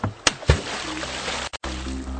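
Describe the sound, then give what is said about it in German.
Microphone on a rope lowered into water to record whales: two sharp knocks, then a steady hiss with faint sloshing and one brief dropout partway through. “So, Mikrofon am Seil befestigen und ab damit ins Wasser.”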